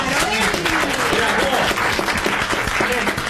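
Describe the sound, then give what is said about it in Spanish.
A studio audience at a game show gives loud, sustained applause. Dense clapping continues evenly from start to finish, with no breaks. “el aplauso”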